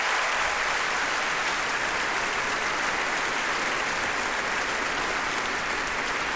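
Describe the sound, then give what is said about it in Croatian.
Concert audience applause for two composers from The Echo Society collective, a steady, dense wash of clapping that stays even for several seconds without letting up. “Pozdravimo ih pljeskom.”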